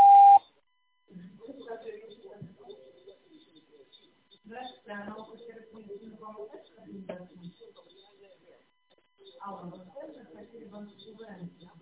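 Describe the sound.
A telephone beep follows a busy-line answering-machine message: one steady electronic tone about a second long, then talking.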